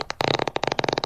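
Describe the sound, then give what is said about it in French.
A fart sound effect in the form of a quick, rattling, sputtering burst of many rapid pulses, moderately loud and lasting about a second with no pause. “Juste parce qu'il pétait, t'imagines ? C'est un peu violent. Voilà, ça c'est le bruit de l'époque.”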